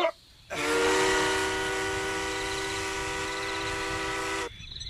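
A train whistle sounds as a train arrives at a station: one long, steady, strong blast of about four seconds, with quieter rumbling before and after it.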